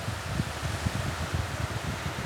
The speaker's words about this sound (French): Il y a beaucoup de vent, c'est-à-dire que là, on est en train de se prendre le vent dans la gueule